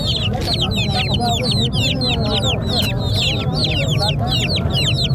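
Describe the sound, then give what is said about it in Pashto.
Desert chickens cluck busily at a Friday market in Tarinkot, with many short, high, chirping clucks overlapping steadily throughout and a low murmur of voices beneath. “دا بیا صحرایي مرغان دي چې د پسرلي د موسم پر اتاک سره په شمیر کې زیاتوالی هم راځي”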